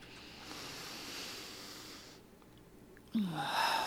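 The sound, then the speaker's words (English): A slow, deep breath taken audibly, a steady airy rush lasting about two seconds, then a brief quieter pause and a louder breathy sound at the end. “right now, take a deep breath.”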